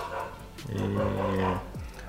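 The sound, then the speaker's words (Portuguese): Dogs bark and growl at each other in a continuous rough snarl, with a tonal, whining growl swelling in the middle before breaking off into a short yelp near the end. “Tá rolando uma discussão canina aí. Eu vou acabar com ela.”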